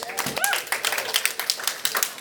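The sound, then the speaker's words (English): Brief scattered applause from a small audience at a talk, clapping for the group leaders: many quick, sharp hand claps at a steady, moderate level, with a voice heard briefly near the start. “Small round of applause for group leaders.”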